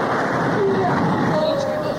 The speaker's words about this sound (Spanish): La tempestad es terrible. El barco puede hundirse de un momento a otro.